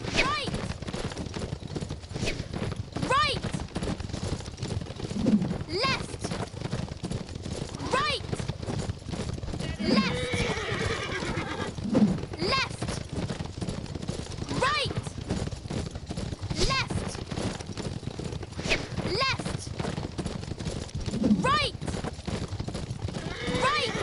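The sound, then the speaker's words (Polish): Galloping hooves of a horse in a video game, a constant rhythmic clip-clop across the whole stretch, with voices calling out over it. “I teraz Jedziemy na koniu.”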